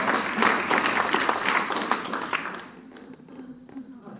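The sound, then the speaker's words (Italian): Audience applause for a woman at an Italian-speaking gathering: a brisk, dense burst of clapping that carries for a couple of seconds, then thins out and fades to a few scattered claps over a low hum. “Un applauso alla Tania.”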